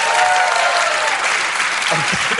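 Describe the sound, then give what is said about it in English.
Muted, polite applause from an audience as a panelist is introduced at a live show: a steady, dense patter of clapping at even strength, with a brief voice near the end. “Muted applause, muted applause. Polite applause, yeah.”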